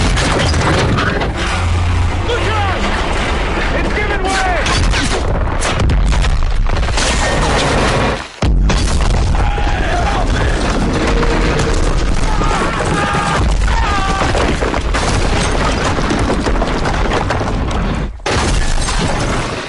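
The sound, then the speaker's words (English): Explosions and crashing debris sound as bridge wreckage falls in a Call of Duty video game: a dense, loud, unbroken roar of booms, shattering and rumbling that runs throughout. “And so you get to ride the bridge wreckage down, and it sounds like this.”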